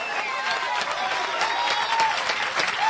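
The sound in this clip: Applause from a church audience during an evening worship service, a steady dense patter of many hands clapping continuously throughout, with no clear breaks.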